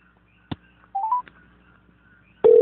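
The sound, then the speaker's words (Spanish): A telephone number is dialed: a few quick keypad tones sound after a sharp click, followed by another click and a loud, steady tone that begins abruptly at the end. “Ah, no te vayas, que lo llamo a Oscar.”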